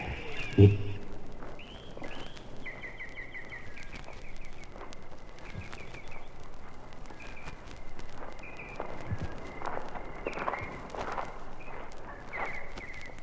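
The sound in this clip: Footsteps walking in a garden, soft, faint steps in a loose rhythm over steady background noise, with light chirping tones drifting in and out.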